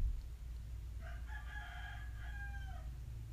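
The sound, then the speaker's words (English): A rooster gives one crow, a drawn-out harmonic call of about two seconds that holds steady and then drops at the end. It is fairly faint over a steady low hum, with no voices. “see, you made the rooster mad.”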